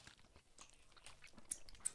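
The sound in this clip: Someone chews a Reber pistachio-marzipan Mozartkugel chocolate, making soft, faint chewing with a couple of brief crunchy clicks near the end.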